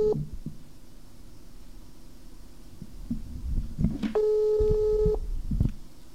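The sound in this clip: A telephone ringing tone after a number is dialled: one steady mid-pitched ring with harmonics, lasting about a second, over low rumble and scattered handling clicks.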